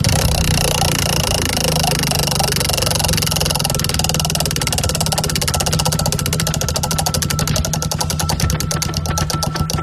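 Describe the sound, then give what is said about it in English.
A prize wheel spins with rapid, continuous ticking that is dense at first and turns into sharper, more distinct clicks toward the end as the wheel slows. “We're going to spin the wheel right now.”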